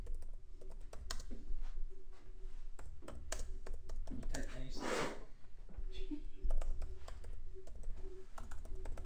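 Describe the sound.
Quick clicking keystrokes on a computer keyboard come in irregular bursts, under people talking.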